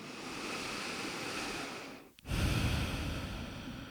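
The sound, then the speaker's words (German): Deep breathing, loud and airy, holds steady for about two seconds. After a brief pause it resumes, slightly stronger. “ein paar Mal tiefer ein- und ausatmen.”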